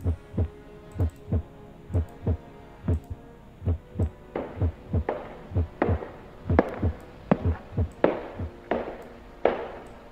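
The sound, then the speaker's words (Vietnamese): A rapid, frantic heartbeat pounds on its own, with many strong, low thuds in a quick, steady, regular rhythm throughout. “Nhất là nhịp tim của Hương lúc này nó đang ra sức, nó đập như chưa từng được đập, đập đến cuống cuồng, đến loạn xạ.”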